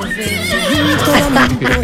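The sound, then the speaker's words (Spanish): A voice imitates a horse neighing with a loud, wavering, shaky whinny. Its pitch jumps up and down in steps for about two seconds. “Me llaman caballo. Me llaman el caballo relinchador.”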